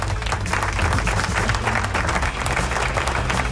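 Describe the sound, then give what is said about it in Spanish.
Loud, continuous applause during a rock and metal radio show, a dense wash of clapping over a heavy low rumble that barely dips across the few seconds. “Aplauso.”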